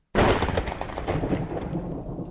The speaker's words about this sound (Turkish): Yağmur da başladı.